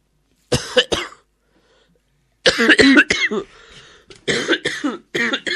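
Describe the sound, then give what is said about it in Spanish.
A person coughing hard: two sharp coughs, then after a pause a long run of harsh, rasping coughs and hacking bursts, loud, with voiced groaning sounds mixed into the fit. “me parece que su tos está extralimitando el momento de relax que le hemos dado. Una cosa es toser y otra cosa es abusar de la decencia de los buenos oyentes norteamericanos.”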